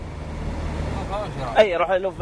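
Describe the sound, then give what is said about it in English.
Steady low rumble of a car driving slowly in Iraq behind a military convoy, continuous engine and road noise throughout, with a voice speaking over it toward the end. “Why are we driving so slow right now? Well, because unmilitary convoy, and we should stay 100 meters behind them”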